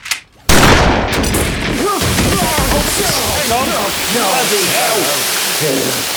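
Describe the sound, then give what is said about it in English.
A single shotgun blast sound effect bursts in loudly after a short quiet start. Its heavy roar carries on for several seconds while voices come in over it. “can you load up the sound of a shotgun? Yep. All right, fire it off.”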